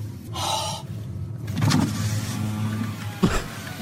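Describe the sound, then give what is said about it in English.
An electric car window rolls down with a steady motor whir that holds at a low, even pitch for over a second, then ends in a short, sharp thump. “I love the sound effect of that window rolling down. I got to play that again.”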